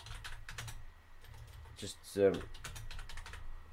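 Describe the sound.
A quick note is typed on a computer keyboard as bursts of light, rapid key clicks. A brief vocal sound breaks in partway through before the typing resumes.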